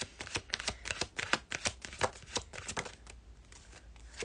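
Tarot cards are shuffled by hand in many rapid, soft, papery snaps and riffles. The sound is faint and grows sparser and quieter toward the end.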